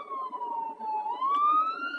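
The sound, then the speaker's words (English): A police car siren heard from inside a car: a steady wailing tone that dips slightly and then rises again, moderately faint and continuous, with no talking. “sorry about the sound and the noise. I'm in my car and there's police cars all over.”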